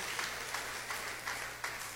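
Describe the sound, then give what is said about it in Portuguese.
A church audience claps in praise with faint, evenly spaced claps in a steady rhythm. “E pode exaltar o Senhor Jesus, né? Com as palmas. Glória a Deus.”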